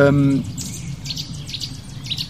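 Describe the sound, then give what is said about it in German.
Nuthatches call repeatedly, a series of short, high, sharp notes in quick bursts that carry on steadily after a brief low tonal sound at the start. “Ui, die Kleiber gehen ab. Kleiberparty neben mir.”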